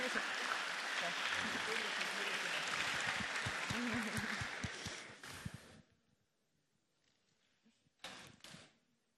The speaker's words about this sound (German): Liebes Publikum, ich bleibe bei meiner Bitte, dass Sie sich selber applaudieren,